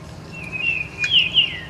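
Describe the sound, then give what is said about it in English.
A Baltimore oriole sings a short phrase of clear, high whistled notes that rise and dip, loud and alone over a faint low background rumble. “That's an oriole. Jerry Barrier points out the song of a Baltimore oriole.”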